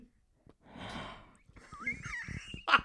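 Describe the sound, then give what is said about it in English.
A person takes an audible breath, a soft, rushing inhale lasting under a second, and a voice follows right after. “That's a weird time to take a breath.”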